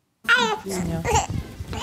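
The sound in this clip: A baby babbles and whimpers in a converted former ox stable on an Upper Bavarian moor farm, giving short voiced bursts of wavering pitch that come close together and are fairly loud.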